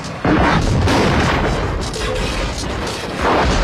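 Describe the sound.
Gunfire and an explosion from a scene in the film RoboCop, a loud blast bursting in after a brief quiet start and rumbling on with sustained booming, crackling fire through the rest.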